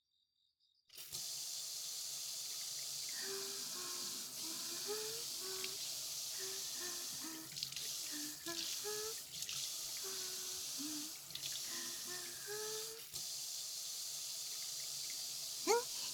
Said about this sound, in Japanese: じゃあ、洗い流して。シャンプーするね。